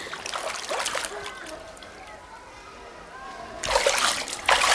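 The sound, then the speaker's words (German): Water splashes as children dive in a swimming pool racing to grab rings from the bottom, a burst of splashing at the start, a quieter stretch, then louder splashing toward the end, with children's voices. “Komm, wir tauchen um die Wette. Wer schneller einen Ring vom Boden aufheben kann.”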